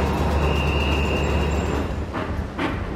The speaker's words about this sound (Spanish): Aquellos trenes comían paladas de carbón, soltaban un humo negro que hacía bellos dibujos. Empezaban las ruedas a traquetear sobre las vías.